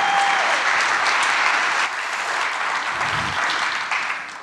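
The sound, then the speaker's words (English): Audience applause for a guest from Zambia, a loud, dense wash of clapping that holds steady before tapering off at the end. “Give Chabu a big hand, everybody, again.”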